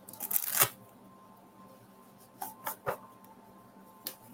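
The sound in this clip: Playing cards are shuffled for a psychic reading, with a quiet riffling burst at the start followed later by a few short flicks and snaps. No one speaks.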